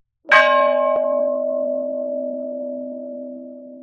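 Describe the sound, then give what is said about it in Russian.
A single strike of a school bell marks the end of a lesson, a sharp clang followed by a long, steady ringing tone that slowly fades, heard alone. “Учебный колокол возвестил окончание урока.”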